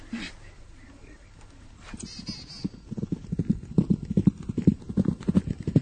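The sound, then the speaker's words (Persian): Horse galloping with a rider aboard: quiet at first, then rapid rhythmic hoofbeats build and grow steadily louder toward the end. “دوباره سوار اسب میشه و به تاخت میره.”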